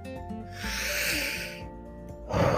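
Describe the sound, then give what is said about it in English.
A deep breath drawn in as one long, airy hiss lasting about a second, swelling and then fading, under steady background music with sustained tones. “I had to take a deep breath because those are very, very painful to say out loud.”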